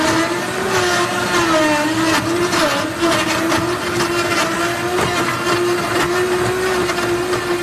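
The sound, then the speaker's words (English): Heavy-duty commercial blenders whirring as they blend frozen chunks of fresh fruit into smoothies, a loud, steady motor whine with a constant hum and no talking over it. “These are our blenders. My husband made these boxes because the blenders are so loud.”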